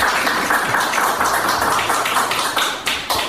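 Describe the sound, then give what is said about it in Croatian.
An audience at a festival event applauds, producing dense clapping with sharp individual claps standing out. The clapping stays at a fairly loud, steady level. “Tako da bih jedan aplauz za to što smo postali dio ovog festivala.”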